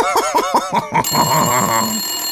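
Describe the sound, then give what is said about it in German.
A telephone rings with an incoming call: a quick run of bright pulsing electronic rings, then a sustained shimmering ring tone, loud and alone. “das ist ein Anruf”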